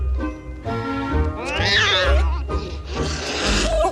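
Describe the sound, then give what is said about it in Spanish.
Cat yowling and caterwauling when a Saint Bernard dog unexpectedly comes upon it resting beside a wooden fence: a few loud, strained cries with wavering pitch, the later ones harsher and noisier. “Un gato descansa junto a la valla. El San Bernardo se encuentra con el felino de improviso.”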